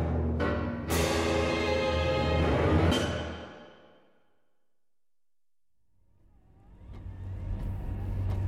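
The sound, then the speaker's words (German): Car driving on a snowy road at the edge of a forest: a loud engine rumble with sharp knocks near the start and around three seconds. It fades to near silence, then a low engine rumble slowly builds again. “Sie haben angehalten. Der Wagen steht am Waldrand.”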